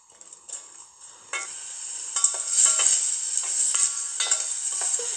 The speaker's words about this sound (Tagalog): Okay, lagay na natin yung ating bawang. So, gigisa natin yan. Pati yung sibuyas.